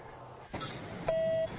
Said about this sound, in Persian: اون تلفنه.